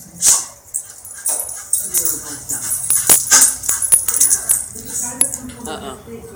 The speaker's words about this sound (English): Also, this is a very young dog.